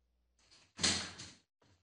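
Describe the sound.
A door swinging open: a soft first movement, then a louder scraping rush, and a brief faint click at the end.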